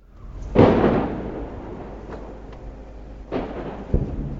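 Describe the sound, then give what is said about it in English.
Rocket strikes hit the Sha'af neighborhood near Gaza City: a few deep, rumbling booms, the first the loudest, followed by a sharper, shorter blast, each trailing off into a low rumble. “This is the Sha'af neighborhood. Very close to Gaza City, and as you can hear, it's being rocketed absolutely continuously. These rockets are coming in closer and closer all the time.”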